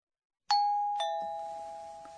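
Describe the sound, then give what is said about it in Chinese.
A doorbell gives a soft two-note ding-dong, the second chime lower than the first, with the tones ringing on and slowly fading. “这是门铃的声音吧？ 对，日语里这样说。 乒乓。”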